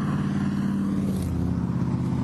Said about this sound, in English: That was a Shelby GT.